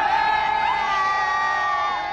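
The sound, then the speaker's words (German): A large crowd cheers as Pope Benedict rides through in the popemobile, a loud, sustained wash of voices with high whoops and shouts running through it. “Jubel brandet auf, als Benedikt kurz vor 10 im Papamobil durch die Menge fährt.”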